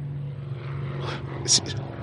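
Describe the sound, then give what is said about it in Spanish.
An airplane drones overhead with a steady low engine hum, while brief voice sounds come and go on top. “Es un avión.”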